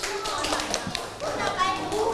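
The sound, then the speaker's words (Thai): Children in a classroom clap for their classmates, many quick, irregular hand claps mixed with young voices. “ตบมือให้เพื่อนหน่อยครับ”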